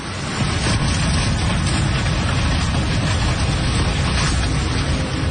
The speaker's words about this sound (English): like an aluminium can that's being crushed, but much, much bigger. Yeah, a lot bigger and also a lot scarier. That's a caravan being pressed against a bridge by floodwater.